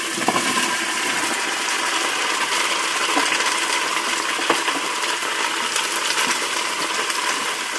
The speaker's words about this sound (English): With the meat, I'm going to dump in the leeks and onions, and here they go.